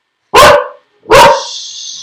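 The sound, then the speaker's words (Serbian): A dog barks twice, loud and sharp, with a short gap between; the second bark trails into a faint high, steady tone. “Pauza za lajanje, okej.”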